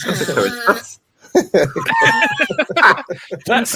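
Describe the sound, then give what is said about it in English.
A young girl imitates duck noises with her voice: a quick string of nasal, squawky quacks and clucks, loud and close, with a brief silence near the start before the calls resume. “She's making duck noises today.”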